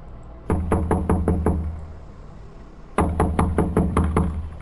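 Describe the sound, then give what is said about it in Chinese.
Knuckles rap on an apartment door in two quick bursts of several firm, evenly spaced knocks, separated by a short pause, loud and clear with no voices. “我敲了敲他家的门。”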